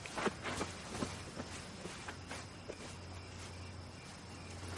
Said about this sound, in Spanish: Vesper camina agachada hacia la mansión.